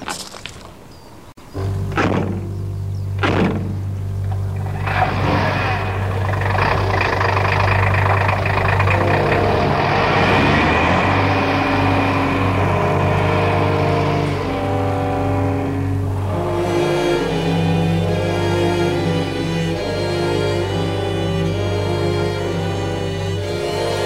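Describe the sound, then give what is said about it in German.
A car engine runs as the vehicle drives off, following a few sharp knocks at the start; the loud, steady drone holds its tone, then shifts pitch toward the end. “Wir fahren zur Ranch zurück. Los, Jungs, aufsteigen. Ich fahre hinter Ihnen her.”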